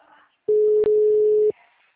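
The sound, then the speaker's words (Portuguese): A telephone line tone sounds after a dropped call. A single steady mid-pitched beep lasts about a second with one tiny break in the middle, and there is near silence before and after it. “Oi, dona Ana, a senhora tá desligando ou caiu a ligação? Caiu a ligação.”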